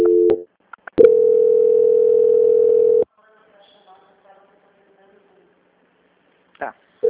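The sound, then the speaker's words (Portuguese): A telephone line tone plays during a call transfer to a bank's quality department: a short tone burst, then a steady, loud, even tone lasting about two seconds, followed by near silence and another brief burst at the end. “vou transferir a ligação para o setor de qualidade”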